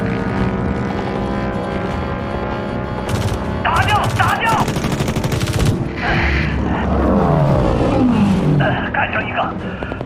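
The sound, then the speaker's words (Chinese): Rapid machine-gun bursts crackle during aerial combat in a video game with Fokker fighter planes, loud over a steady engine drone, with a descending whine near the end. “敌方开火了”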